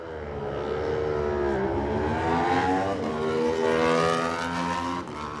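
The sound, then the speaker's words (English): Aprilia-powered Super Twin racing motorcycle engine at the start of a TT road race, a loud continuous roar whose pitch dips and climbs again a couple of times as it accelerates. “Such distinctive sounds out of these Super Twin machines.”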